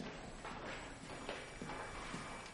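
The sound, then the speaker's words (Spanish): Footsteps of a man walking through a laboratory: a faint, steady series of firm, evenly spaced steps heard on their own. “Jesse deja la carretilla, camina por el laboratorio y pasa por detrás de Walt.”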